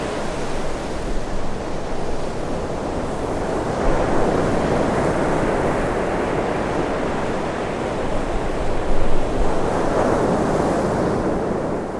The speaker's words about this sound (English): Aberdeen's winter weather doesn't make the beach all that inviting.